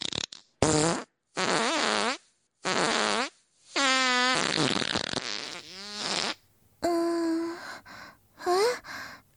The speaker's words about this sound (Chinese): 为了小臭狗的加餐，我可是很努力的让自己的屁变得很臭哦。